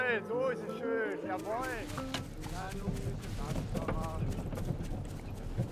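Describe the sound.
A ridden police horse's hooves clip-clop in a steady run of many hoofbeats, with a voice talking over the opening moments.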